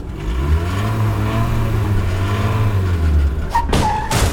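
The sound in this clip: A car engine revs hard as it is put into gear to race, a loud sustained roar that wavers in pitch before ending in a few sharp, abrupt bursts.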